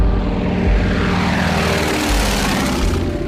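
A propeller airplane drones steadily while flying at over 1000 metres during a pilot's exam flight, its engine giving a constant loud buzzing hum with steady tonal overtones. No voices.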